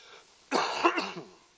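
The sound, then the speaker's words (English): A single sharp cough from someone giving a sermon into a microphone, a short loud burst with a couple of rough pulses before fading back to near silence. “You're going to have to forgive me. I might cough one or two times, so I hope I don't do it right into the mic.”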